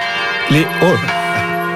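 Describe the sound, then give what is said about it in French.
Church bells ring a few days before Easter, their sustained, steady tones humming under a voice. “Les cloches sonnent, on est à quelques jours de Pâques, effectivement.”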